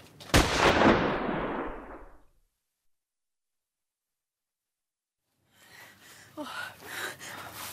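Gunshot in a radio drama: one sharp, loud blast that rings off over about two seconds, then silence, followed by softer breathy rustling and gasping.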